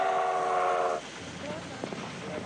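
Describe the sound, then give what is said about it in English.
A train approaching a station at night: a steady, horn-like harmonic tone holds for about a second, then gives way to a low, continuous rumble with a few faint higher squeals. “The train's headlamp grows larger in the dark as it approaches.”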